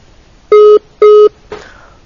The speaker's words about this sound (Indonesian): kadarullah terputus sambungan teleponnya Ibu Reni